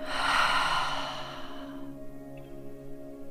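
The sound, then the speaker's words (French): Deep breath with a long, airy rush of breathing that is loud at first and fades after about a second and a half, over soft, steady sustained musical tones. “Prenez une grande inspiration profonde. expirez.”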